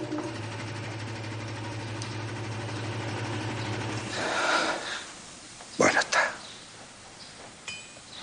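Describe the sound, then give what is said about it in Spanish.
An engine runs with a steady idling hum while someone works on it. The hum stops partway through, followed by a few sharp metallic clinks and handling noises. “Juan continúa manipulando el motor.”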